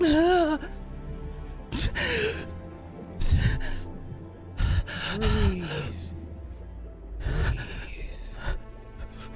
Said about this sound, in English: Breathe. It's, God, it's like I've never breathed before.